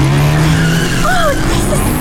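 Car tires squeal as the car skids during stunt driving, a loud, wavering screech over a constant roar of engine and road noise.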